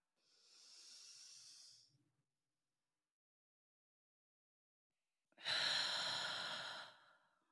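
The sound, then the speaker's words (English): A person takes a deep breath, a soft airy inhale followed by a long silent pause and then a fuller, louder exhale hissing out, with no talking. “So let's take a deep breath together, all right?”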